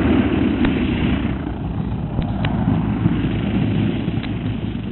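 Aircraft landing at a camp just beyond a gully: a loud, steady, rough engine drone that holds at a constant level throughout, with no clear rise or fall.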